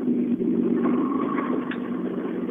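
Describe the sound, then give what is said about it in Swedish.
Steady engine drone from a BMW E36 six-cylinder car driving up, a low, even hum that holds at a constant loudness throughout, with a faint higher tone rising briefly above it. “Oj, nu kommer en E36 här. Sex cylindrar. Det här gillar vi.”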